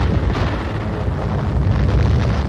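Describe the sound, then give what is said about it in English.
A napalm bomb bursts on impact, heard as a dense, loud, continuous roar of fire and rumble that holds steady throughout without any distinct single blast. “This is what a napalm bomb does when it hits. Its searing flame spreads for hundreds of feet.”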